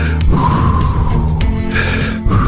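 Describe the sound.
Heavy, nervous breathing: loud, continuous, gasping breaths with snorting, rough inhales and exhales that carry on without a break.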